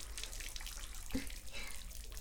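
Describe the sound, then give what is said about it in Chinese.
Tap water runs steadily as squid-like tentacles are rinsed under it, a faint, continuous hiss of flowing water with one brief, duller splash near the middle. “再水下冲洗了一会儿，触手变得更滑嫩了”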